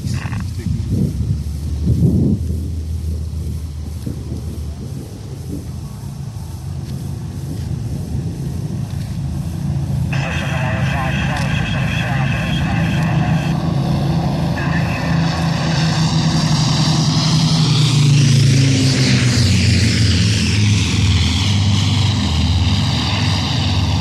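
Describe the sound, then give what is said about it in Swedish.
Piston engines of a Spitfire, Hurricane and Lancaster flying low together over an airfield, a loud continuous droning roar that builds steadily, peaks near the end and shifts in pitch as the aircraft pass. “Spitfire, Hurricane och Lancaster tillsammans förbi här på låghöjden på fältet.”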